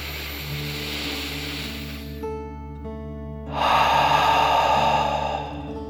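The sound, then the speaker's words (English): A deep breath in and out during a children's mindful relaxation exercise: two long, airy rushes of breath over soft, steady background music, the second noticeably louder than the first, with a short pause between them. “And let's take another deep dragon breath, in and out.”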